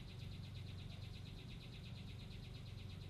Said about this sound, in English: And if you hear that, that's my little machine gun bird. He likes to wish a good morning.